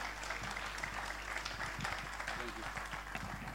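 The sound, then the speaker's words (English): Faint, continuous audience applause welcomes the first speaker at a community mental health event. Soft, even clapping lies over a low steady hum. “So I'm going to ask you to put your hands together and welcome our first speaker.”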